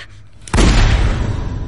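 A revolver gunshot rings out as a single sudden, loud blast after a quiet start, then a heavy rumbling roar carries on to the end.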